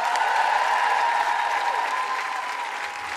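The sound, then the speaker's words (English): Steady, dense applause from a live comedy audience at the Fringe, welcoming a guest performer, held at an even loudness for about three seconds before easing slightly. “Please put your hands together and make excited woo-hooing noises for first-time guilty feminist.”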